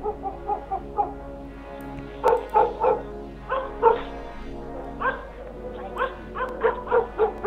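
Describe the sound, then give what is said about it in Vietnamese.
Dogs bark loudly around a village: many short, yipping barks arrive in irregular clusters, some quick and overlapping, with brief gaps between bursts. “Đang ngồi trong nhà, tôi bất chợt nghe tiếng chó sủa ầm ĩ.”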